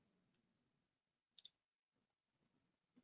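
A quick pair of faint computer mouse clicks sounds amid near-silence as someone navigates search results and selects a details tab in software, followed by another soft click.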